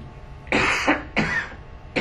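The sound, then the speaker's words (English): A person coughs from a dry throat, a few harsh, dry bursts in quick succession, loud and alone, with short pauses between them. “I'm coughing because of a dry throat and I do not have anything infectious.”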